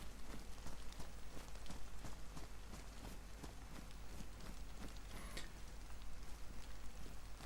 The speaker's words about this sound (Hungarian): elállóban van az eső